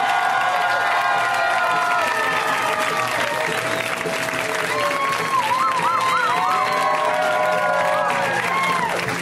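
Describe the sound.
Loud applause and cheering from a comedy show audience greeting a comedian's first appearance, a dense, steady roar of clapping with whoops and shouts that holds at full strength throughout.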